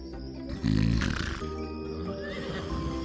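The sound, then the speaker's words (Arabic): A horse whinnies loudly in a governor's luxurious stable of purebred horses, the neigh bursting out and then trailing off into breathy, snorting noise. “بالفعل قضينا أنا وجحا تلك الليلة في إسطبل الوالي الفاخر مع خيوله الأصيلة”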